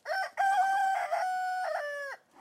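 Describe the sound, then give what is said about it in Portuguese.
A rooster crows once, a clear multi-part call of short opening notes that runs into a long, held, tonal cry. It is moderately loud and alone, with no voices. “é o som de um galo a cantar.”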